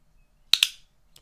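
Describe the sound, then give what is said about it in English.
Two crisp clicks from a handheld clicker in quick succession, sharp and bright, then a much fainter click after a pause. “When I click this clicker, you'll become my puppy.”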